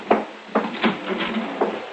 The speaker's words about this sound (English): You mind opening the front door